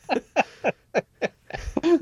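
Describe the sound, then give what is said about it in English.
Birds chirping on an experimental record: five evenly spaced, descending chirps, then a denser cluster of overlapping calls. “There's some birds chirping”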